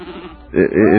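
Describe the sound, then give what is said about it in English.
A sheep gives one loud, wavering, quavering bleat in the second half, following a brief stretch of muffled voice. “it almost took 2 days to get that sheep to lick him.”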